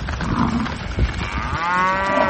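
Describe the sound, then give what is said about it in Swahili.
Cattle that escaped while being loaded onto a truck and pushed into a salon in Nanyang, Henan province. Rough, noisy scuffling with a dull thud comes first, then one long, loud, low moo fills the second half. “huko Nanyang, mkoa wa Henan, zinazowaonyesha ng'ombe hao wakisukumana kwenye mlango na kuingia kwenye saluni hiyo wakigonga vipande vingi vya samani”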